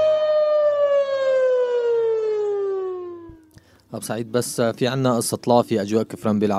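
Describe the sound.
An air raid siren sounds over a radio station to warn of circling planes. Its loud, sustained wail slides slowly downward in pitch before cutting off, and then someone starts talking.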